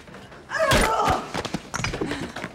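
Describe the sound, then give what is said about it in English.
A brick clouting a man over the head in a dark stairwell lands as dull, heavy thuds in a brief burst of scuffling, then quieter knocks follow. “She spots another man on his way up, so she stops, grabs a nearby brick and clouts him over the head with it.”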